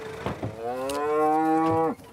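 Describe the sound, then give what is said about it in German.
A Charolais mother cow, awaiting her calf, gives one long, loud moo that holds a steady low pitch for over a second and then cuts off abruptly. Faint shuffling noises come before it. “Die Mutterkühe erwarten ihre Kälber. Und Petra, die älteste Charolais-Kuh in der Herde, ist heute besonders besorgt um ihr Kalb.”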